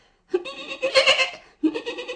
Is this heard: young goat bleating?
yes